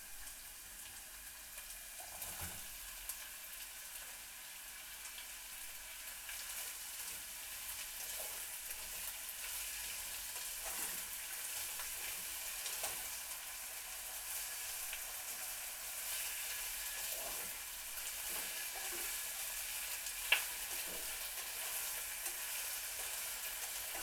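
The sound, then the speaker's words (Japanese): Carrots and potatoes fry in a pan with softened onions, giving a quiet, steady sizzling hiss. Occasional soft scrapes and clicks of stirring break through, one brief sharper knock near the end. “玉ねぎがしんなりし始めたら、人参とじゃがいもを入れましょう。”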